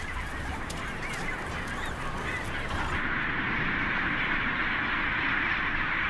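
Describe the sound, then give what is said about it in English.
Calls of the world's largest penguin colony form a dense, continuous chorus of honking, braying cries, loud and unbroken throughout with no clear gaps between individual birds. “This is the largest penguin colony in the world.”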